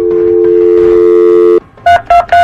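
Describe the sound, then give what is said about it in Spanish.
A touch-tone telephone dialing a number: a long steady tone gives way to three short, loud beeps in quick succession. “vamos a marcar”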